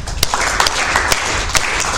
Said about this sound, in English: Mother, we clap.